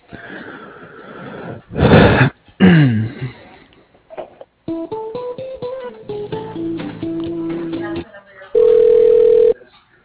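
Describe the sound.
Telephone line tones during a call transfer, heard through a narrow phone band: a run of shifting stepped tones, then a single steady beep near the end, after some brief breathy vocal noises at the start.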